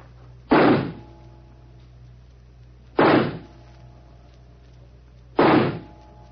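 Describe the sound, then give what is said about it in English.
Three pistol shots from a six-bullet revolver, fired in a wagered shooting contest. Each is a sharp, loud bang with a brief decay, evenly spaced about two and a half seconds apart, with no voices in between. “You take the first 3 shots? Very well. I must just check that it's loaded. Yes? 6 bullets. All right. Here I go.”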